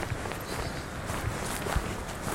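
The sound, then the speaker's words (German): Faint footsteps as people walk along the edge of a forest after crossing a quiet country road: a few soft, irregular steps over a low, even background. “Wir stellen das Auto ab, überqueren eine kaum befahrene Landstraße und gehen ein paar Schritte am Waldrand entlang.”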